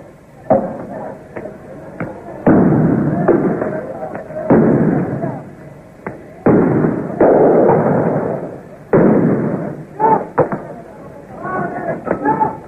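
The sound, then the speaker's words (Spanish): Gunshots and tear gas canister launches crack out during a street protest with a work stoppage, several sharp, loud bangs scattered irregularly beneath continuous spoken narration. “Mientras las bombas de gases lacrimógenos comienzan a afectarnos. Se escuchan también algunos disparos de armas de fuego.”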